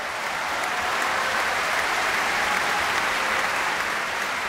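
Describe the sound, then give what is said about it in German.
Stormy applause for Lang Lang and the Vienna Philharmonic after Ravel's Piano Concerto in G major, a thick, unbroken wash of clapping from a large concert audience that stays loud and uniform throughout. “Stürmischer Applaus und große Begeisterung für Lang Lang und die Wiener Philharmoniker unter Tugan Sokiew für ihre Interpretation des Klavierkonzerts in G-Dur von Maurice Ravel.”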